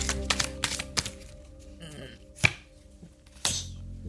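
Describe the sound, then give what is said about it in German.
Playing cards are shuffled and a card is drawn during a card reading, giving a few sharp snapping slaps and light rustles separated by short pauses. “Konzentrieren Sie sich auf die Karten, mischen und ziehen noch eine Karte, bitte”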